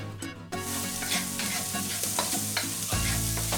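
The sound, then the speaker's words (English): Steady sizzling of a sauce being mounted with butter in a pan, a dense, hissing fry with intermittent scraping and stirring clatter, continuous and fairly loud, with no talk. “I'm going to let them cool down a little bit, and I'm going to start mounting my sauce with butter.”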